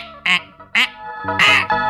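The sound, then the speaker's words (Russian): A duck quacks a few times, loud nasal squawks in separate bursts with short gaps, the last ones running longer and closer together. “За гусаком-простаком пошла утка-ковыляка.”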